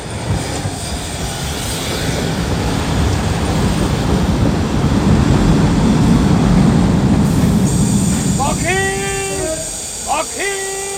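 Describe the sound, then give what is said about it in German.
A train arrives with a rumbling roar that swells and holds, then its wheels give several high-pitched squeals near the end. “Na, da ist er ja, der Zug.”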